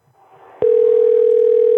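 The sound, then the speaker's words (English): Ringback tone on an outgoing phone call: a steady, single-pitched tone begins abruptly after a faint murmur and holds unbroken at even loudness to the end. “I'm gonna get two more rings in here, and if he doesn't pick up, I will call you back in just a second.”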